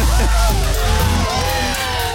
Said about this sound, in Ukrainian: Ну я попрошу оператора оплески запустити.